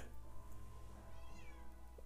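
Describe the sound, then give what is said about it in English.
A house cat meows, with high, nasal calls over a steady low hum. “Yeah, the cat is in. Oh, kitty cat.”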